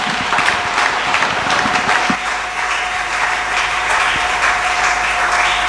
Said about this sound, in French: Est-ce qu'on peut acclamer le Seigneur pour ce moment de masterclass?